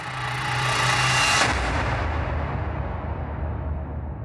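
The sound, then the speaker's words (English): A volcanic explosion on Tanna island in Vanuatu builds into one loud, deep booming roar. It then fades into a lingering low rumble. “In Vanuatu, an island called Tana has, to my mind, the best tourist volcano called Yazu, because at least every few minutes there is an explosion.”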